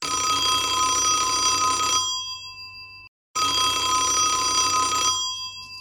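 A telephone bell rings for an incoming call: two long, loud, bright trilling rings split by a brief silence, each lasting about two seconds before fading.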